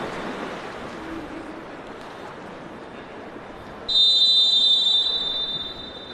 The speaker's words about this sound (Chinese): 这里是广西体育中心游泳跳水馆，各位现在看到的是校园组大学乙组女子五十米的仰泳的比赛，马上就开始，运动员是入水。